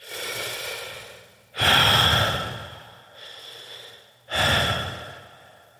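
Ragged, heavy breathing comes in a few uneven, harsh breaths, softer draws alternating with louder, noisy gasps.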